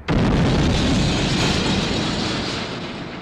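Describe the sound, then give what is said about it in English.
A bomb explodes in a street during the years of violence in Northern Ireland, a sudden loud blast that rolls straight into a sustained, heavy rumble and slowly fades. “Bombs regularly went off in the streets.”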